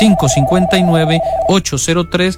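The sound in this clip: An incoming call rings as a steady telephone tone for about a second and a half, heard beneath continuous Spanish speech during a phone-in consultation.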